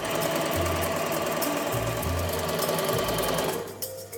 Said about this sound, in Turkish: Giydiğimiz kazakların hepsi bu aşamadan geçiyor. Şimdi dikiyorum. Geliyor.